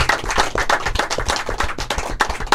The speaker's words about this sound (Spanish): Vamos a brindarle un aplauso en esta a las abejas, ¿no? ¿Verdad?